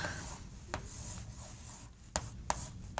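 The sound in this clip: Writing strokes scrape and rub steadily for about three seconds during a lecture on motor torque and transfer functions, with a few sharper taps toward the end and no talk over them.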